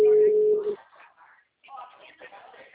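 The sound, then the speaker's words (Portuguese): Ringback tone of an outgoing telephone call: one steady, mid-pitched beep lasting under a second, followed by a person talking. “Tá ligando pro Fernando.”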